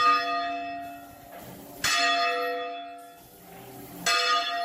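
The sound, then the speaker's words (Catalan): Manual peals of church bells in Ivars de Noguera in the Noguera area: a few loud, bright strikes about two seconds apart, each ringing on into a long, slowly fading metallic hum. “Ivars de Noguera, on els joves han recuperat una tradició mil·lenària amb repics de campana manuals que anuncien festes, defuncions, incendis o canvis d'estació.”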